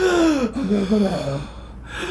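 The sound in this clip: A voice imitates someone panting out of breath after climbing three steps: a long, breathy, wheezy gasp that slides downward in pitch, followed by a brief fainter breath.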